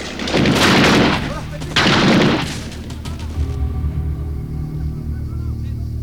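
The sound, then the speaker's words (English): Gunfire peppers a vast tree-covered area with bullets: two loud, sustained bursts of rapid shots crackle and boom, followed by a lower, quieter rumbling tail. “They pepper a vast tree-covered area with bullets.”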